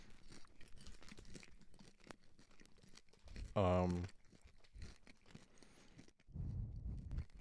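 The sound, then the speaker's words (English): Faint crunching and crinkling of someone eating barbecue-flavoured popcorn picked up off the floor, soft irregular chewing noises amid people talking. “I'll eat the popcorn off the floor. Okay. I guess we were going to do it separately. Hurry up. Hurry up. I can't taste it yet.”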